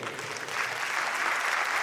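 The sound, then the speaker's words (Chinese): An audience applauds at a community performance, a dense, even clatter of clapping that grows slightly fuller and then holds steady. “感谢大家掌声鼓励”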